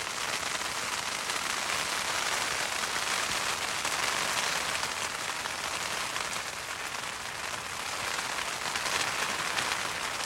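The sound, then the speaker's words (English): Hail drops patter in a dense, continuous hiss of tiny impacts that holds at an even, moderate loudness for about ten seconds. No voices are heard. “We'll add just a few more seconds of pitter-patter from the hail drops.”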